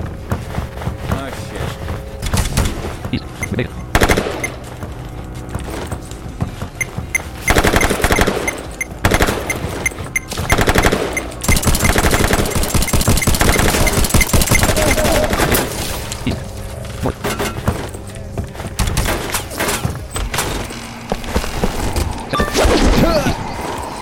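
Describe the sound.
Gunfire crackles as dense, rapid automatic bursts and single loud shots, almost without pause for the whole stretch, with the intensity rising and falling.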